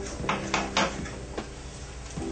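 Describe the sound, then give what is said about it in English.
A knife cuts slices of bread for monkeys' medicine, giving a few quick, crisp strokes close together, then sparser single strokes, moderately loud over a low, steady hum. “So right now I'm just cutting the bread slices.”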